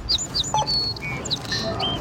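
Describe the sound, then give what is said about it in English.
A sparrow chirps at a store's self-checkout, giving several short, bright, high-pitched tweets in quick succession over a low background hum. “There's a sparrow using a self-checkout.”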